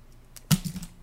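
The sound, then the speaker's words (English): A single sharp click as an SD card is flipped like a coin, trailed by a brief faint rattle, with no voices. “I'm going to flip this SD card.”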